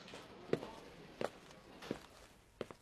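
Footsteps carry someone into an interrogation room: four soft, evenly spaced steps in a steady walking rhythm, with no voices.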